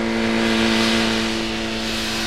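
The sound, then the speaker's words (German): A motorcycle drives away toward town, its engine a steady, loud droning hum with strong even tones that hold nearly level across the short stretch. “Als sie sich jedoch seinem Haus näherten, fuhr Sam gerade auf einem Motorrad in Richtung Stadt davon.”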